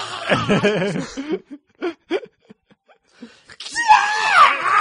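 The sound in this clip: A person lets out a wavering, mock scream, then snickering chuckles and short breathy sounds, and finally a second high, strained scream.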